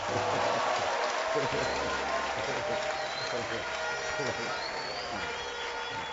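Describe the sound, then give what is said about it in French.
Church audience applauding during a bishop's bilingual French and English sermon introduction: steady, dense clapping blended with voices from the crowd, sustained without a break. “C'est possible. It is possible. N'est-ce pas? Applaudissez.”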